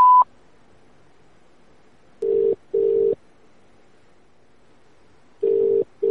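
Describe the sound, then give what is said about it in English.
Telephone voicemail tones: a short, high beep at the start, then after a silence two lower, steady tone bursts, a longer pause, and two more of the same lower tones. “Welcome to voicemail. The person you have called is unavailable. Please leave a message after the tone.”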